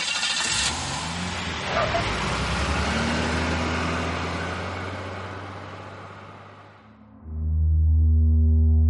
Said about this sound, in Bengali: শিবানী বারুইপুরের দিকে গাড়ি ছোটায়।